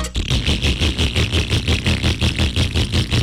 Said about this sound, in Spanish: Si su moto suena así...